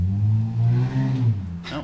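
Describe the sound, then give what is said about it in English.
A car engine revs as the car drives past fast on a street, a steady low, droning hum with slightly wavering pitch that ends in a brief higher burst. “That's Brad Pitt driving there by. Yeah, it was. Man, he drives really fast.”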